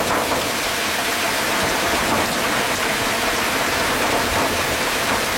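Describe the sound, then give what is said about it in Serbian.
Rain drums on a window or roof as a steady, dense hiss of many fine drops, even and continuous throughout with no voices. “recimo kada dobuje kiša po prozoru ili na krovu.”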